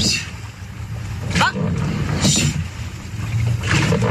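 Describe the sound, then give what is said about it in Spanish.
Women rowers train in a rowing boat in Donostia, with steady wind and water noise and a few brief splashing surges from the strokes. “Entrenamiento de las remeras de Raúl Lagunac en Donostia.”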